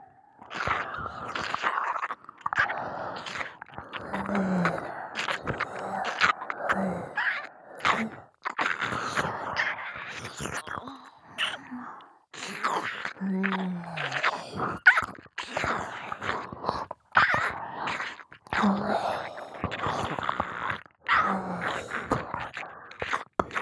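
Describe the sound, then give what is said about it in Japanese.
Close ASMR mouth sounds of nibbling and eating an ear: many soft, wet bites and chewing noises in irregular bursts separated by short pauses, with occasional low murmuring tones. “今度はお耳を食べさせてもらいましょうか。いただきます。”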